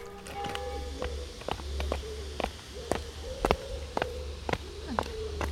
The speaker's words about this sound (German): Ja, wenn wir hier jetzt so lang laufen, hast du recht. Eichstätt hat schon ganz schön viele kleine verwinkelte Gassen.